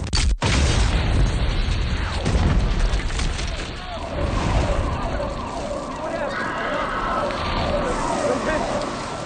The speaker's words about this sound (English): And then the bombs go off.